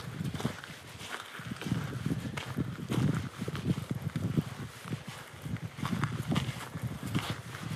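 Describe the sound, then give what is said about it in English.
Footsteps crunch through partly melted snow after a big snowfall, then continue onto ground without snow. Many steady, gritty steps follow one another in a walking rhythm with no voices. “That's actually snow that you hear me stepping on right now. Listen as the sound changes as I walk over to an area that doesn't have snow.”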